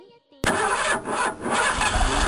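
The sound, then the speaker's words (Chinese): A car engine starts before driving off, firing abruptly after a quiet moment and then running loudly and steadily with a couple of slight dips in level. “你啱啱听到嘅系准备开车嗰阵时嘅声音”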